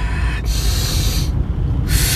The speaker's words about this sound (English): Take it in. Release. Deep through the nose. Number two, deep through the nose.